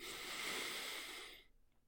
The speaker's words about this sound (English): Let your legs follow suit and fall to the side, no longer carrying the weight. Perfect. Deep breath in.